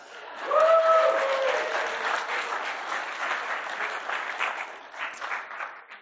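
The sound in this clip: Audience applause for a man handed a twenty-dollar reward for reading the bulletin, a dense, steady clapping that swells quickly and then holds at a fairly even level for about six seconds.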